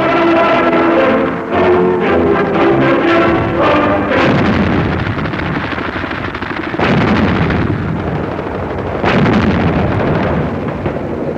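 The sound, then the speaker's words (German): Artillery fire shelling enemy positions on Crete during a German paratrooper landing: a loud, dense, continuous rumble broken by a few heavier booming blasts. “Die feindlichen Stellungen werden durch Artillerie sturmreif geschossen.”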